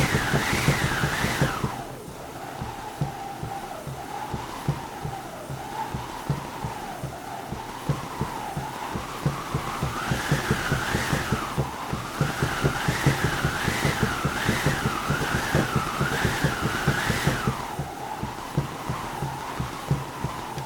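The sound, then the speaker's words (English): Howling wind comes from an eolophone, a hand-cranked wind machine once used for radio plays in Finland, whose wooden cylinder rotates against canvas. Fast, steady rhythmic whooshing continues throughout under a wavering whistle-like tone that repeatedly rises and falls. “this is the sound of an eolophone, a manual wind machine, producing sound of wind when you rotate a wooden cylinder against the canvas.”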